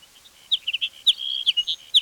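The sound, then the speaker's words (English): High, quick chirps of a hedge sparrow singing, a jumbled string of short bright tweets tumbling one after another over a couple of seconds, with no voices. “Hedge sparrow number two.”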